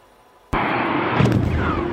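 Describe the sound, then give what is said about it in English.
Aircraft bombs, missiles and rockets exploding on a compound: one sudden, loud blast breaks out of near-silence and carries into a sustained, roaring rumble. “U.S. aircraft using bombs, missiles, and rockets to destroy Abu Bakr al-Baghdadi's compound.”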